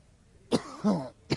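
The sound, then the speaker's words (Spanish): Harsh coughing from a person sleeping rough on a snowy street in the cold, with a few sharp, rasping bursts and a rougher voiced sound between them, heard alone with no talk. “Tiene tos”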